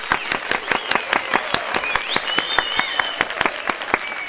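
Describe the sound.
An audience applauds in honor of guests at a radio show, clapping in a steady, quick, even rhythm of sharp claps that holds at a constant level for the whole stretch.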